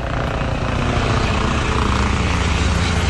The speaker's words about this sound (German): Mecklenburg-Vorpommern hat ab heute einen nagelneuen Polizeihubschrauber.